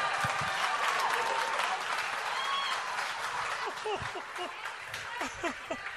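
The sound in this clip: Audience applause and cheering for a guest pastor at a church service, a dense, steady burst of clapping lasting several seconds, with voices calling out over it before it thins slightly toward the end.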